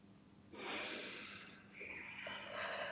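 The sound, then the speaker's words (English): Slow, deep breathing in and out while sitting in a guided meditation: long, soft, airy breaths, each rising in after a quiet start and holding steady before easing off. “we're just going to sit for a little minute and just breathe deeply in and out. In and out.”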